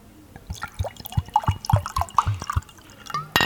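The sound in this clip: 19 Crimes wine is poured into a glass, producing many quick, rhythmic glugs and gurgles that build toward a louder splash at the end.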